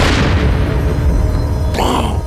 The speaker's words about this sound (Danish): så eksploderer kanonkuglen mod den svenske borgmur.